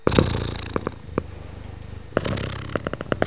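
Processed recording of a cat purring: a low, grainy rumble broken by irregular sharper pulses, fairly quiet and with no voices.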